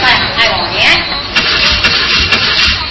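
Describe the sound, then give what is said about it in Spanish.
A car engine cranking as someone tries to start a car that has stalled several times: a rough, steady mechanical churning that runs for about three seconds with a few surges in loudness. “A ver, dale arranque. Para, Gordo, ¿para qué llamo al servicio? ¿Qué? ¿Qué servicio? Ni servicio. Dale arranque, hazme el favor.”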